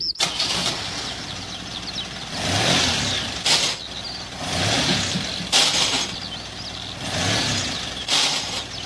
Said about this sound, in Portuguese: Não tô conseguindo engatar nenhuma marcha.